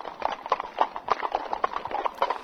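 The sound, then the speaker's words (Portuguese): A young colt's hooves clip-clop in a fast galloping rhythm, with many quick, even hoofbeats in steady succession throughout. “Após um tempo, Apenas o potro que Ferreirinha montava aparece galopando.”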